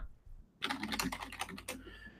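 Computer keyboard typing as a link is entered into a chat: after a brief quiet moment, a fast burst of many keystrokes, fairly faint and with no talk.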